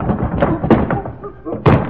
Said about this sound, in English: Oh, Colonna, watch where you're going. You almost knocked me down. Well, what do you know? Ran right into the pot.